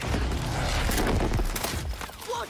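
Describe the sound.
MG42 machine gun fire in the Battlefield video game: dense, continuous bursts of rapid shots mixed with heavy booms, loud throughout and easing slightly near the end.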